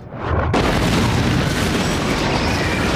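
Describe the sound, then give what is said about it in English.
Starships explode in a Star Wars: The Clone Wars space battle: after a faint rumble, a sudden massive blast erupts into a loud, dense roar that stays powerful for several seconds. “I'm gonna blow it up? The whole stinking thing? This is the happiest day of my life.”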